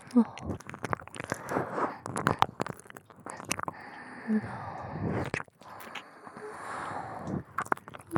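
Wet sucking and slurping mouth sounds on an earlobe, many soft smacks and squishes in an irregular rhythm, with occasional breaths between them.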